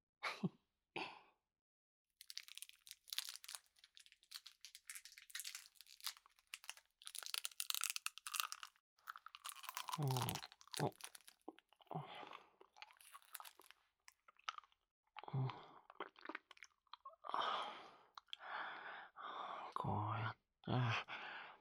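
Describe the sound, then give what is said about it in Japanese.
Hard candy is licked and crunched in close-up, giving wet mouth sounds and many crisp crunches in uneven bursts, with soft whispering in places. “いいこと思いついちゃったね。キスしながらこの飴舐めない？”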